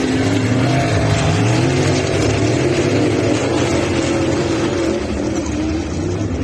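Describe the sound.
Sprint car engines throttle up while racing on ice in a loud, continuous roar. The dense, buzzing drone holds steady throughout with no talk over it.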